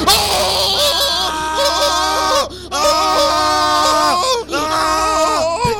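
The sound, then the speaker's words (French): A man screams in fright during a power cut that plunges everyone into darkness, giving three long, shrill, wavering cries with brief breaks between them. “Mais pourquoi on est hystérique comme ça ? Pourquoi criez-vous, monsieur le maire ?”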